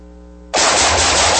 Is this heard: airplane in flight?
no